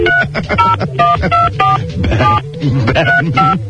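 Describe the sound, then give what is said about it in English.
Telephone keypad dialing tones sound as a quick run of many short touch-tone beeps, one number after another, over a low background murmur. “Oh, what? I got to put a 1? Sorry. You must first dial a 1. That's right, dialing 1.”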